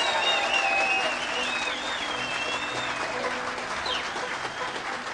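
An audience applauds to welcome Kentucky bluegrass fiddler Kenny Baker onstage. The dense clapping stays steady and loud for the whole stretch.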